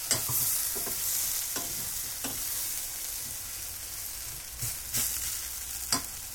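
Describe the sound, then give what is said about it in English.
Garlic sizzles in a frying pan, a soft, steady hiss broken by several short scrapes and clicks as it is stirred. “Oh man, the garlic just like made that start smelling so amazing.”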